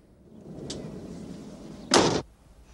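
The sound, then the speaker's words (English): A front door is shut by hand in a hallway, giving one loud, broad thump that lasts a fraction of a second, preceded by faint low rustling and a brief soft tick. “She dumps them in the hallway, then with a pained look, shuts the front door.”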